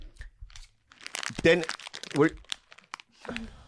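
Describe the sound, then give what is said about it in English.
Crisp crunching from someone chewing crunchy food close to an open microphone, a few dense crackly bursts mixed with voices talking over it. “What is that noise? What's crunching? Fancy. Your mic is on. Are you chewing or are you? Oh yeah. Turn your mic off.”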